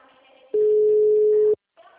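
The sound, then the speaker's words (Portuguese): A telephone line tone sounds as a call is placed from a caixinha: one steady, loud, mid-pitched beep lasting about a second, with faint talk just before and after it. “Tô ligando da caixinha.”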